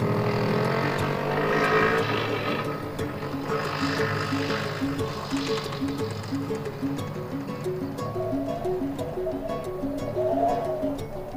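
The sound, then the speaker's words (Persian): Motorcycle engine as a man and another rider travel along a road: a continuous, fairly loud motor drone with a pulsing, throbbing tone that stays steady throughout. “یونس و یه مرد سوار موتور توی جادن.”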